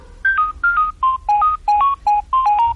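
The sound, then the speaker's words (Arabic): A mobile phone ringtone going off among worshippers during prayer: a repeating melody of short, bright electronic tones in quick phrases, steady and fairly loud, with no talking. “موبايل علي رن زي ما انتو سمعين، فضل يرن وعامل دوشة لكل المصلين.”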